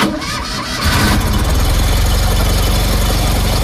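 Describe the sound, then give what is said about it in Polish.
An FSO Fiat 125P car engine cranks briefly and then catches into a steady, rough, low throbbing idle. It is loud and continuous, with no voices. “W roku 1991 warszawska FSO zakończyła produkcję Fiata 125P, który brzmiał tak.”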